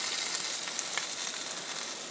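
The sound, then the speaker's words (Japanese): Food sizzles while searing in a small frying pan, a steady, fairly faint hiss of frying with small crackles scattered throughout. “ちょっとフライパンが小さいですね。まあいいや、もう今更変えるのめんどくさいから、このちっちゃいフライパンでなんとかする。焼き目はつける”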